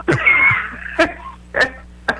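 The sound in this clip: Sneezing: a few sharp, breathy, explosive bursts, the first drawn out and noisy, the others short and abrupt.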